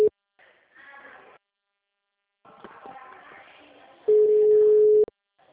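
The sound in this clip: A telephone line tone heard while redialing a call: muffled voice-like sound, then a single loud, steady, mid-pitched beep held for about a second.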